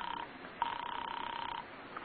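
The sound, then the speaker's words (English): Telephone ringing on an apartment line as a nervous caller waits: a warbling electronic trill comes in a short burst, then a longer one of about a second, then the start of another, with no talk over it. “You hurry to the phone and dial. And as you do, you notice your hand is trembling. You call Ferguson's office. There's no answer. Then you ring his apartment.”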